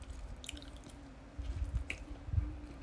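Chewing a convenience-store ham and egg sandwich, with soft, moist, squishy bites and mouth sounds recurring at an uneven pace, fairly faint and without talk.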